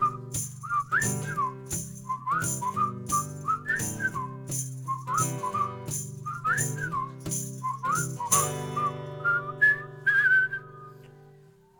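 A chorus of whistles plays a short, bright, warbling figure over and over, with a steady low musical backing underneath and a higher held phrase near the end; no voices.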